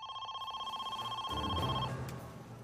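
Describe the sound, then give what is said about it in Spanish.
A telephone rings at night with a trilling, warbling electronic tone for about two seconds, then the ringing stops. The ring is fairly faint, and lower sounds take over for the rest of the moment. “Más tarde esa noche sonó el teléfono.”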